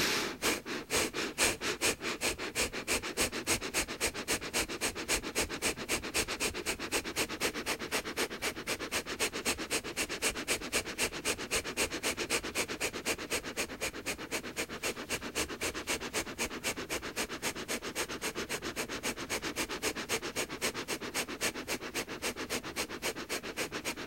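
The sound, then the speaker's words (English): Breathing in and out through the nose during a breathing exercise: many short, sharp nasal sniffs and exhales repeat in a fast, even rhythm, quiet and steady throughout with no talk. “And gently starting your breath in and out through your nose.”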